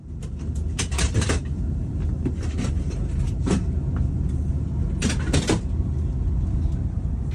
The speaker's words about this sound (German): Was ihr da gerade hört, ist ein Bahnmitarbeiter, der wirklich so von Platz zu Platz geht und die Sitzplätze zu Schlafplätzen umbaut.